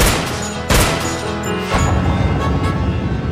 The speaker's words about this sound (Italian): l'uomo lo insegue e gli spara 6 colpi di pistola.